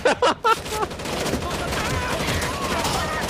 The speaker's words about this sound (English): I'm out of ammo. I'm just firing.